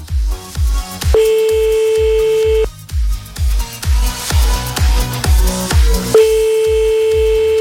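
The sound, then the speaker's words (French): A telephone rings on an outgoing call placed live on a radio show. Two long, steady ringing tones sound over a rhythmic music bed with a punchy beat. “c'est parti, 20h34, on appelle maintenant le premier”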